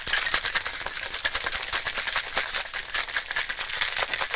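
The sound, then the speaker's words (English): A cocktail shaker is shaken hard, a continuous rapid rattle of ice knocking inside that stays dense and loud throughout, with no voices. “Cocktail shaking sounds for John.”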